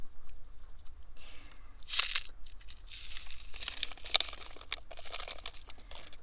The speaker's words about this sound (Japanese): パチパチするアメちゃんも 耳元で食べていい？ きっと新感覚だよ。